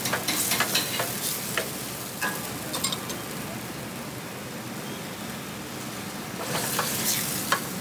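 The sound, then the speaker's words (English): Butter sauce sizzles in a pan as it is made to order: a steady hiss with crackles and pops throughout, louder at the start and again near the end. “So we make a butter sauce in the pan to order.”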